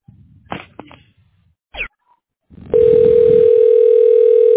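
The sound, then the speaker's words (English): Telephone dial tone as a call is being placed: a few short clicks and handling noises come first, then a loud, steady single-pitched tone starts partway through and holds unbroken to the end. “Now, I'm dialing the agent.”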